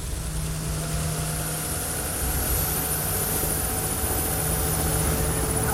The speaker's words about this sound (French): L'hélicoptère décolla, se balança au-dessus du sol et s'éloigna rapidement vers l'horizon. Le vacarme de l'appareil s'évanouit au-dessus de la ville